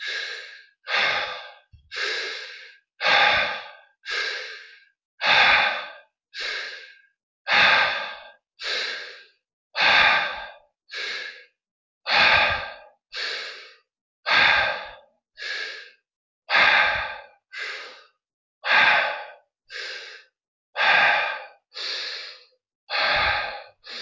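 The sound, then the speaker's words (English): Rhythmic breathing exercise: many deep breaths at a steady pace of roughly one per second, each a strong airy burst, alone with no talk. “So I'll go ahead and breathe with me now, starting now.”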